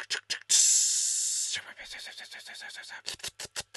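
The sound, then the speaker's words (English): Steak tips sizzle on a grill with a loud, steady hiss for about a second, then it fades as people talk. “We got another steak tip going on the grill.”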